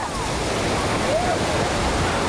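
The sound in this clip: Surf rolls in at Gyeongpo Beach in Gangneung on the beach's opening day, with swimmers floating on tubes, as a steady, dense rushing wash of waves and wind with no clear breaks.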